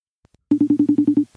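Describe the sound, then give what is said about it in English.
An iPad rings for a call: eight quick, evenly spaced low electronic beeps in one short burst, loud and clear with nothing else over them. “That's the sound of the telephone, well, the iPad ringing.”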